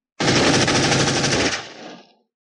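A machine gun fires wildly at a crowd of surrounding beasts, a loud, continuous rapid burst lasting about two seconds that thins and fades out at the end.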